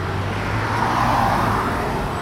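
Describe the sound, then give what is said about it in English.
Car traffic on Los Angeles city streets: a steady, loud, low rumble of engines and tyres that blends into one continuous hum with no distinct single vehicle and no talk. “To slow climate change, California regulators say they need to end traffic that sounds like this.”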